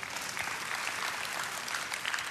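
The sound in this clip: Audience applause during a church sermon, a fairly soft, continuous patter of clapping lasting about two seconds without any breaks.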